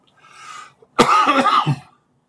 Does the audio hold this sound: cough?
yes